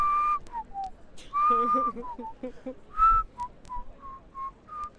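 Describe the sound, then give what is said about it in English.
A person whistles a loose tune of short chirpy notes and a few held tones, fairly quiet, with a low voiced bass layer humming beneath the whistle for a moment near the middle. “I know, my whistling isn't quite as good as it could be. No, it had a sort of bass... bit to it,”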